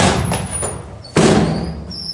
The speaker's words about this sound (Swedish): sitter på mitt rum när dörren flyger upp